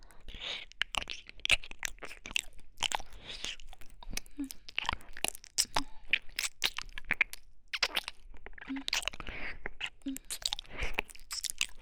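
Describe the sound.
Someone tastes and chews crunchy food, with many crisp bites and crunches in an irregular rhythm, quiet overall.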